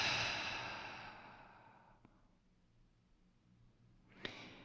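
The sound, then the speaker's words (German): A long, soft exhale during a grounding yoga breathing exercise fades out over about two seconds, breathed in through the nose and out through the mouth. A quiet pause follows, then a short, sharp breath near the end. The whole clip is faint. “Nimm einen tiefen Atemzug durch die Nase ein lang durch den Mund aus.”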